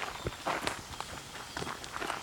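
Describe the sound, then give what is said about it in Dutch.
Footsteps walk across a country estate: many soft, fairly faint steps fall in an irregular rhythm on the ground. “Kom, we gaan even lopen.”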